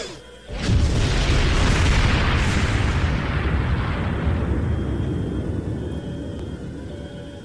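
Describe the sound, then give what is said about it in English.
A Klingon D7 starship blows up under torpedo fire in a space battle: a sudden loud blast swells into a long rumbling roar that slowly fades over several seconds, with no voices. “Captain, the D7 is destroyed, and both Cardassian ships are retreating.”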